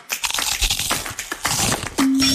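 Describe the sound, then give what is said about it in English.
Car windshield glass crackling as a chip spreads into a crack, a dense run of sharp crunching snaps, then a steady low hum at the end. “That chip turned into a crack?”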